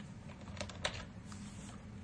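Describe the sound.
Faint typing on a computer keyboard while a number is entered into program code. A few soft clicks sit over a constant low hiss.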